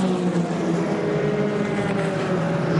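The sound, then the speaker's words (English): Race-leading BMW race car engine driving through a curve on a sunny racetrack, a steady, continuous droning whine with even loudness throughout and no talk. “And the race leading BMW is now heading through Dunlop Curve.”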